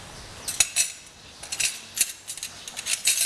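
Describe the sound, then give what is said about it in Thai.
A spoon clinks against a pot while soup is stirred to dissolve a pounded paste. Sharp, light metallic taps come in an irregular scatter, fairly quiet and with no talk. “ตักน้ำซุปมานิดนึงนะคะมาละลายเครื่องที่โขลกไม่งั้นเดี๋ยวจะเป็นก้อนนะคะนะคะคนให้ละลายนิดนึง”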